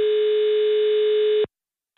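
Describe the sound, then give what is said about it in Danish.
A telephone call tone heard while phoning shops that sell iPhones: one steady, unbroken buzzing tone lasting about a second and a half, then silence before the next tone starts. “Min kollega Ida Herskind ringede til butikker, som sælger iPhone-telefoner.”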